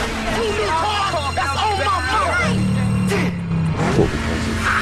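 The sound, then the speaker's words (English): A Camaro and a lime green Evo rev their engines side by side at the line, hitting 8,000 RPM, with a droning engine tone that holds and then drops away, mixed with voices. “The Camaro and the Evo nose to nose. Brian shifts gears and hits 8,000 RPM.”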